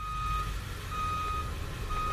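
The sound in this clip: A truck backing into a driveway to dump a load of gravel-like Duraberm gives off faint, evenly spaced reversing beeps, about three, over a low engine rumble.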